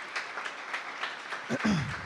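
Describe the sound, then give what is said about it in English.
A church audience applauds to welcome back their team returning from Japan, a soft, steady patter of clapping with a voice rising briefly near the end. “I also want to welcome back uh, our team that went to Japan that just got back here yesterday. If we can give it up for them.”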